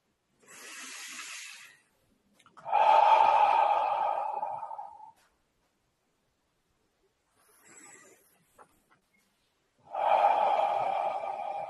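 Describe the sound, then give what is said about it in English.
Slow, deep breaths in guided relaxation, drawn in through the nose and let out through the mouth. Soft airy inhales alternate with longer, louder, breathy exhales, separated by silences, with no voices. “Take a deep breath or two, if you like, through the nose and out the mouth.”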